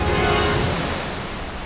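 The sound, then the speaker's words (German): Underground waterfall carrying a small boat down into a cave: a dense, loud, unbroken roar of rushing water that eases slightly toward the end. “Ein unterirdischer Wasserfall befördert die beiden auf ihrer Nuckelpinne gnadenlos in die Tiefe.”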